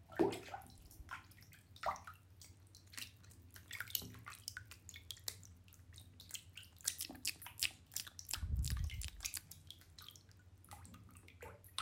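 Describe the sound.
Faint water sounds of someone taking a bath: many small splashes and drips at irregular intervals, with a slightly fuller slosh near the end. No talk is heard.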